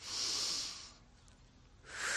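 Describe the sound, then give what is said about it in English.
Soft breathing during a calming belly-breathing exercise: an airy, hissing breath of about a second, a quiet pause, then another breath begins. Faint and heard alone with no talk. “Breathe in through the nose. Out through the mouth.”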